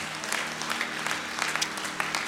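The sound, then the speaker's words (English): An audience clapping their hands in praise at a church service, a dense, steady wash of applause lasting the whole clip. “Don't you praise the Lord with a hand clap.”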